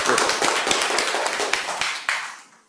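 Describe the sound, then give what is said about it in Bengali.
Brisk clapping from a group of schoolchildren rewarding a correct quiz answer at an Independence Day event. Quick overlapping claps start loud, thin out and fade, leaving a few last isolated claps before silence. “চুমকি একদম সঠিক উত্তর দিয়েছে, একটা হাততালি হয়ে যাচ্ছে।”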